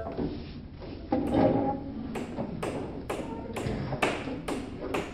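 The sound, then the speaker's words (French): Banging from an Imperial Fist building a fortified barricade: a steady series of sharp, wooden-sounding knocks and thuds, evenly spaced and fairly loud, with no talk. “Et quoi ce bordel qu'on entend? C'est l'Imperial Fist qui est en train de construire une barricade fortifiée, et apparemment pour un pas qu'on puisse accéder à sa cellule.”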